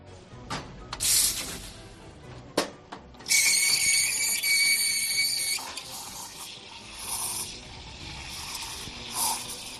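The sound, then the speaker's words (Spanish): A coffee machine at the restaurant Casa Jaguar hisses, with a long burst of steam, while staff get ready to open. Scattered clicks, knocks and clatter come before and after the hiss, and no talk is heard. “Este es el sonido de una cafetera y de, bueno, la gente que trabaja en este restaurante en el que estoy, que se llama Casa Jaguar, que están preparándose para abrir.”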